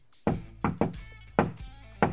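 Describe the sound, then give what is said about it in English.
Knocking on a front door: five hollow, fairly soft knocks in an uneven rhythm, two close together early on, each with a short ringing decay, and no voices. “Knock on the door.”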